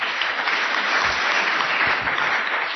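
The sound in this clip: Applause acclaiming the Lord after someone sings: loud, dense, continuous clapping that stays steady throughout without a break, with no talk over it.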